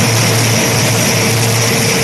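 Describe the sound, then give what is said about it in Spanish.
Propeller airplane engine on an aircraft bound for an airport with relief supplies, a loud steady drone with a low humming throb that holds constant throughout. “La aeronave tiene como destino el aeropuerto de Maiquetía”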